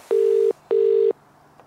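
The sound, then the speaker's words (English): A telephone ringing tone plays as a radio station calls a competition winner: two steady, even, mid-pitched bursts in quick succession, then a quiet pause. “I think we're now, by the power of technology, about to phone everybody.”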